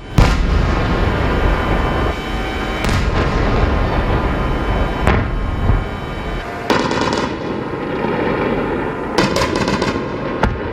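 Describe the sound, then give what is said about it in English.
Drone and missile attacks with anti-aircraft fire over Kyiv in the early hours of the morning. A loud, sustained roar and crackle runs throughout, with several sharp bangs and bursts of gunfire. “This was the sound of the attacks and anti-aircraft over Kyiv in the early hours of the morning.”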